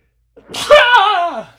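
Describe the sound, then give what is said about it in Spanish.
A single sneeze: a brief intake of breath, then a loud, voiced burst that holds for about a second before tailing off. “Por cierto, voy a estornudar.”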